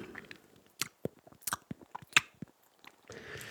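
Quiet, crunchy chewing of tea leaves: a quick run of many sharp bites and crisp crunches, irregularly spaced, with no voices.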